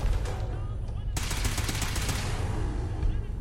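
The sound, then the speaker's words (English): Gunfire in a video game: after a stretch of quieter rumble, a loud burst of rapid automatic shots cracks in and continues in quick repeated bangs before thinning out toward the end. “Did someone just shoot like a fiery missile or something? Damn it! What is that gun this guy was using?”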